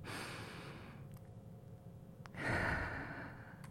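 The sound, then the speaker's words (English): A deep breath in and out during a guided breathing moment: a soft airy swell, a brief pause, then a louder, fuller sighing exhale, with no talk. “Let's take a breath together. Let's take another one. Inhale with me.”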